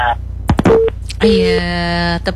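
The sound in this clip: Electronic telephone tones as a caller's line cuts off during a phone-in call: a few sharp clicks, then loud steady buzzing beeps, with one long held tone that stops abruptly near the end.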